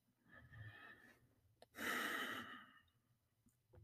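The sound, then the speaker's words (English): A deep breath taken during a guided meditation: a faint, airy breath, a small click, then a louder, fuller rush of breath that fades again, all quiet and without speech. “let's get comfortable to take a deep breath together”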